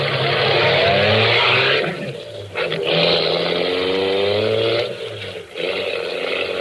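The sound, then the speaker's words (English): A car engine drives toward a garage with the fuel tank nearly empty. The engine is loud and rises steadily in pitch, dips briefly twice, then climbs again each time. “I drove back to the garage”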